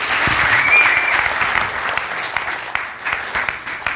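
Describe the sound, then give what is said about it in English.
Audience applause welcoming a reverend: a dense, sustained patter of many hands clapping, loud at first, then slowly thinning to scattered individual claps toward the end. “Let's give a warm welcome to Reverend Jonah Fetzer.”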